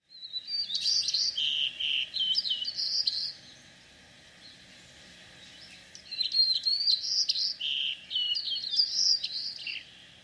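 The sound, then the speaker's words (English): A wood thrush sings two high, fluting song phrases of quick rising and falling notes, separated by a few seconds of quiet. “Wood thrush.”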